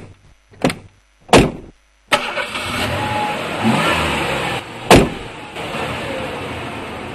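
Car doors thump shut several times as people get into an air-conditioned car. Sharp slams are separated by short gaps, and after the third one a steady engine hum runs underneath.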